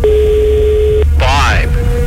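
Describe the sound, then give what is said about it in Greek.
Ringback tone of an unanswered telephone call: a steady, flat purr lasts about a second, a brief voice fills the pause, and then the next ring begins, all over constant line hiss. “Τρίτο χτύπημα, δεν μ' αρέσουν αυτά. Τέταρτο, σηκώσε το τώρα.”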